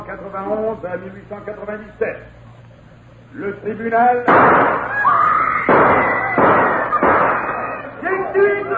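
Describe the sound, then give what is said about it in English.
Gunshots erupt in a courtroom: several loud, sharp bangs burst out in quick succession after a stretch of speech, with voices still heard around the shots. “Gunshots have thrown the courtroom into turmoil.”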